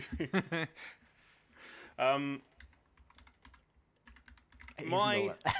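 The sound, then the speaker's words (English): Rapid typing on a computer keyboard, a run of many quick, light clicks falling between stretches of people talking. “I do have it. I'm typing something else in.”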